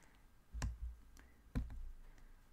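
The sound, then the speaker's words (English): Clicks on a laptop touchpad: two sharp, distinct clicks about a second apart, with a few fainter taps between them. The sound is quiet and there is no talking. “Yeah, sorry. I'm using a touchpad, which I am not used to doing. There we go. I have now pinned that.”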